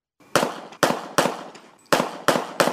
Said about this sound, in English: That's gunshots.